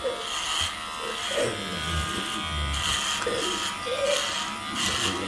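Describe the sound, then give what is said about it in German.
Electric clippers buzz steadily as they shave a patient's head. The loud, constant motor hum wavers in tone as the blades pass over the scalp, with a few stronger strokes across the stretch. “beginnt damit, dem Patienten den Kopf zu rasieren.”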